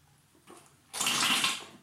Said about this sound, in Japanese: まだね、体を洗う音から撮っていきます。